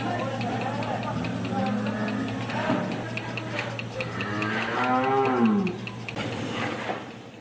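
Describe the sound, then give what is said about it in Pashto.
Cows lowing on a dairy farm in Kandahar's Dand district, where about 150 cows are milked by machines. A few drawn-out moos rise under continuous talk. “د کندهار د ډنډ ولسوالۍ د غواګانو په دغه فارم کې یو سلوشل غواګانې سته چې د پرمختللو ماشینونو په وسیله لوشل کیږي”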